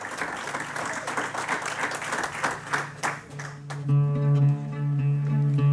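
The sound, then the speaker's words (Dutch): An audience gives warm applause to a prize-winning cabaret performer, a dense, steady patter of many hands. The clapping fades after a few seconds as sustained instrumental music tones begin. “Een warm en parmantig applaus”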